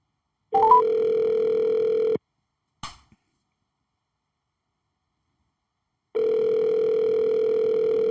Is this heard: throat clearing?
no

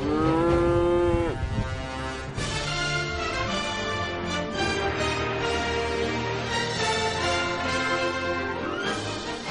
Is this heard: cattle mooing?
yes

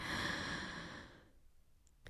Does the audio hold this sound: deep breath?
yes

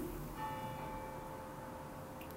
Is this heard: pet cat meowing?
no

